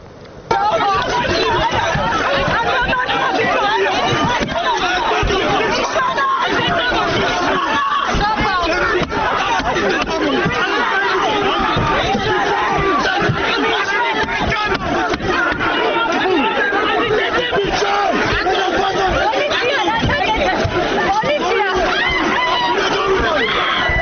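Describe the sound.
An aggressive crowd at a protest, filmed by one of the participants: a loud, continuous babble of many shouting and talking voices that stays dense from start to finish.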